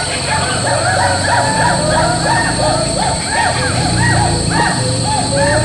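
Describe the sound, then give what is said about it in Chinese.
Skywalker hoolock gibbons call in a primeval rainforest in Yingjiang County, Dehong, Yunnan, with many rapid, loud whooping notes that swoop up and down in a continuous run over a steady high-pitched drone. “长臂猿行动速度非常快，虽然还没有看见他们，但是我们已经听到他们的声音，大家仔细听。”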